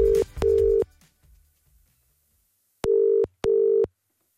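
A telephone is dialed for a call to a hairdresser's salon: four short, clean electronic beeps, one pair followed by a pause and then a second pair, steady in pitch, with no talk.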